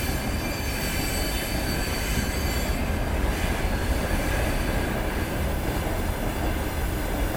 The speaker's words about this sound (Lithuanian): čia netoli tiesiog bėgiai yra, tai, tai pravažiuoja. Į, į, į Lvovą stoti turbūt važiuoja, arba iš jos.